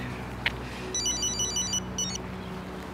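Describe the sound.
A telephone rings with an electronic ringtone: two bursts of quick, warbling high tones, the first longer than the second, over a steady low background hum.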